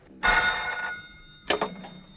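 A telephone rings at a pharmacy: one sustained ring is followed after a short pause by a briefer second burst of ringing.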